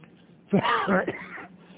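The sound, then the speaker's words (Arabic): A single cough or throat-clearing interrupts a Quran commentary lesson. It is one rough, moderately loud burst that opens with a sharp attack and then trails off over about a second of breathy, voiced rasp against a quiet background. “فقد ترى الكحة ذي محسوبة على الوقت، يعني إذا كحيت لازم خصم مقابل الكحة 3 دقائق.”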